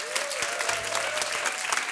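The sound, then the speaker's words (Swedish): Audience applause for a band at a live music event, steady and dense clapping that holds at an even level throughout. “Applåder från honom och applåder för gänget som backar upp här.”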